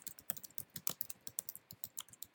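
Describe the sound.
Quick typing on a computer keyboard, many crisp keystrokes tapped in a brisk, fairly even rhythm, heard alone without talk.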